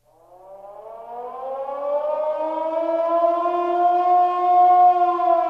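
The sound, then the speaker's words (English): Warning sirens wail in one long continuous tone that climbs in pitch over the first seconds and swells louder, then holds steady and sustained with no voices. “the sounds you hear are the warning sirens going off at the Democratic National Committee.”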